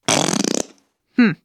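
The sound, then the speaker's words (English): A whoopee cushion deflating gives a raspy, rapidly pulsing fart-like buzz lasting about half a second, then a brief, separate blurt after a short pause. “Maybe you thought that sound was a fart, but it's actually a whoopee cushion.”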